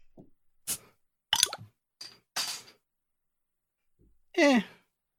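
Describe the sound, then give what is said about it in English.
A can of Angry Orchard Green Apple Hard Cider is cracked open with a few short sharp clicks and a brief fizzing hiss, then a voiced sliding vocal sound. “I am drinking a Angry Orchard Green Apple Hard Cider. Let's see if this makes any noise.”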